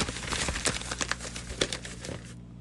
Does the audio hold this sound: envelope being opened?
yes